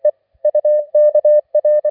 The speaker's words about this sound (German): Haben Franz-Josef-Land erreicht, gaben die Morsezeichen mit ihrem Didadidit preis.